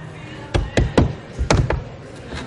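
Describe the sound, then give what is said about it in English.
Knocking on the door of a building: sharp knuckle raps in short groups, three and then two, followed by a fainter single knock. “That sound is coming from outside of the building. Miss? Someone's knocking on the door.”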